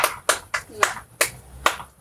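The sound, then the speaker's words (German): A few slow, separate hand claps at uneven intervals, each a sharp, fairly loud crack, with faint talk in the background. “Ja, Applaus wäre richtig cool, wenn wir so zum Abschluss nochmal uns verbeugen könnten.”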